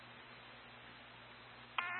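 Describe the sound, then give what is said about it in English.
A single sharp electronic alarm beep cuts in near the end, after a stretch of steady, quiet hiss. “Sorry, guys, we're getting an alarm right now.”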